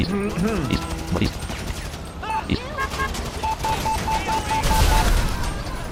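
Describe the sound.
Gunfire with explosive ammo in a modded video game: rapid bursts of shots and blasts mixed with game effects, including a run of short, evenly spaced beeps. People talk over the action.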